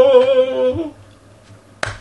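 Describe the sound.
A single sharp hand clap, one brief, bright crack that sounds near the end, after a voice trails off into near silence.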